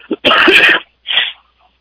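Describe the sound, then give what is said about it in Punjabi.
A man coughs twice: a long, harsh, loud burst, then a shorter, softer cough after a brief pause, with no talk around them. “ਕਿ sorry, ਇਹਦਾ ਵੀ ਮੈਂ ਕਾਰਨ ਦੱਸੂਗਾ ਖੰਘ ਕੀ ਆ ਰਹੀ ਹੈ।”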